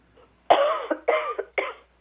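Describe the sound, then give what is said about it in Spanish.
A person coughs three times in quick succession, each a harsh, raspy burst that tails off. The second and third coughs are slightly shorter, and no talk accompanies them. “Oiga, y tose igualito a Gilma.”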